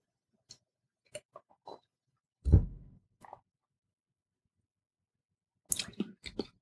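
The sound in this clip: A slurping sip of red wine with cherry and raspberry notes, preceded by a few faint ticks and followed by a cluster of soft wet mouth sounds and clicks; everything is quiet, with long silent gaps between.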